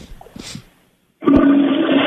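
A toilet flush sound effect: a loud, steady rush of gushing water bursts in abruptly after a short, softer rumbling passage and a brief silence, then roars on without letup to the end.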